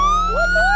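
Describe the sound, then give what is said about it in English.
A police car siren sounds in a short, loud burst of electronic tones: a steady high note slowly climbing, with a quick swooping wail in the middle, and no other sound. “Uh-oh. That's the sound of the police.”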